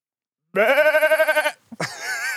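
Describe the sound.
A person imitates a sheep bleat, like a sheep-horse hybrid: one long, wavering, nasal bleat with a strong quavering tremolo, then a short catch and a second, rougher bleat.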